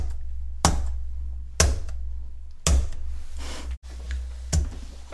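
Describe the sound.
Keyboard typing: four sharp, separate key clicks spaced roughly a second apart over a low steady hum, with no voices.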